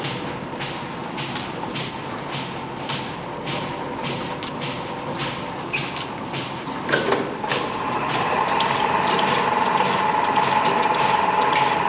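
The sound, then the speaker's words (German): Automatic metal spinning and stamping machines produce a rapid, continuous mechanical clatter of repeated clicks and ratcheting, joined later by a louder, steady whirring hum that thickens the noise. “Drück- und Stanzautomaten werden jetzt den Metalldrücker ersetzen.”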